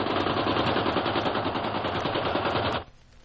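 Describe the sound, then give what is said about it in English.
Machine gun fire in one long, unbroken burst of rapid, dense rattling shots, loud and harsh, that cuts off abruptly near the end and leaves only a faint hiss. “they acted just the way you'd expect Nazis to act. They opened up on him with a machine gun.”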